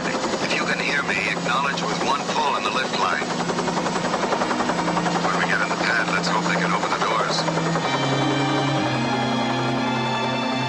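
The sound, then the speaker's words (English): Loud, continuous helicopter rotor and engine roar as the chopper leaves in a movie scene. It holds steady throughout, dense and droning, mixed with other tonal sounds. “just a shot of the helicopter leaving.”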